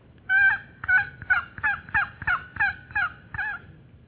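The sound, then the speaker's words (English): A hen turkey calling in springtime: nine evenly spaced, raspy yelps in a steady rhythm, fairly loud and alone against a quiet background. “It's a turkey, yes. This is a female turkey calling in the springtime.”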